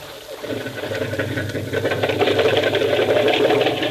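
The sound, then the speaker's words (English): A small boat motor being started in the surf, a fast, rattling, pulsing engine that grows louder over the first second, then keeps running steadily and strong. “Push me into the water. Hold it into the surf till he gets the motor started.”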